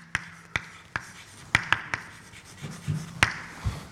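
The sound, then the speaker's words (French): Someone writes out an equation with sharp, dry taps and light scratching strokes, several crisp clicks scattered irregularly over faint background noise. “alors je vais écrire la même chose, hein.”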